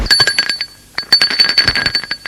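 A doorbell rings at an apartment door, a loud, rapid, rattling electric ring in two bursts separated by a brief pause.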